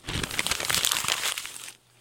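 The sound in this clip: Paper being torn up: dense crackling rips and crinkles run continuously for under two seconds, then stop abruptly.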